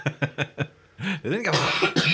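A person with bronchitis coughs four short, sharp times in quick succession, followed by longer, rasping, voiced throat sounds.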